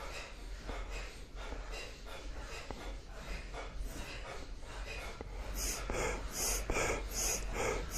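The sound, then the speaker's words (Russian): A kriya breathing exercise with forceful active nasal inhales and light passive exhales. The faint sniffs and breaths repeat in a steady rhythm and become sharper and more pronounced toward the end. “Активный вдох, пассивный выдох такой. Легкий пассивный выдох.”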